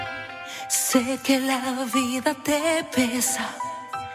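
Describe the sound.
A Spanish-language pop song: a female vocalist sings a line in Spanish with clear vibrato over soft instrumental backing.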